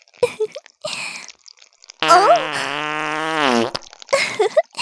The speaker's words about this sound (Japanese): ごめんね。力が抜けておなら出ちゃった。臭かったらごめんね。